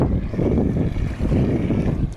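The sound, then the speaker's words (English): Wind blowing outdoors on a fishing trip over sandy bottom, a steady low roaring rumble with gusty buffeting throughout, no talk. “I don't think the wind is too much right now.”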